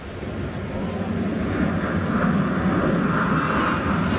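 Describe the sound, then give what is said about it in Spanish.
Airplane flying overhead during a baseball game, a broad, low engine rumble that swells gradually and stays sustained to the end. “Ahí viene el otro avión”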